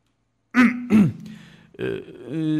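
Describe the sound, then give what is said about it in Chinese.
A person gives a dry, voiced throat clearing in two quick, rough bursts, followed by further brief voiced sounds. “他干咳了一声”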